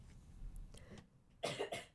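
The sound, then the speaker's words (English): A speaker with a cold coughs in a muffled, muted way, giving a short burst of a few rough coughs, quiet and alone without talk. “sorry, as I'm getting over this cold, everyone listening to my muted cough there.”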